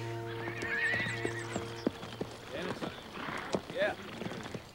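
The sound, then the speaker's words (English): A horse led back into a Yankee army camp with a body draped over the saddle: a whinny rings out early, followed by irregular clip-clopping hoofbeats and another neigh, all fairly faint, with voices in the background. “Cleary leads his steed back into the Yankee camp with Stanton's body draped over the saddle.”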